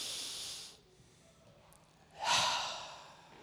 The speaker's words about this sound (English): Let's do that again. Ready? Big, deep breath in.